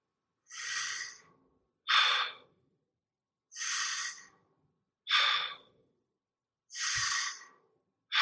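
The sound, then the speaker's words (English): Deep breathing during a guided breathing exercise: full inhales alternating with exhales let out through the mouth, each a loud airy whoosh separated by short silences, with no talk over the breaths. “All the focus, all the efforts on a big full inhale, pulling that one breath up through your whole body and then let it fall out.”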